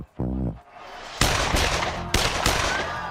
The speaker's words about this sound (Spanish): se escuchó el tronar de varios disparos.